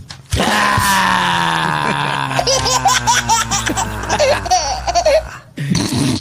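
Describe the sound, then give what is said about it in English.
A baby sound effect of loud, continuous giggling and squealing babble with wavering pitch, which stops briefly and then resumes at the end. “Baby sound effect in there.”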